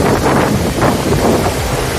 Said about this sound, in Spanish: Avisos por viento.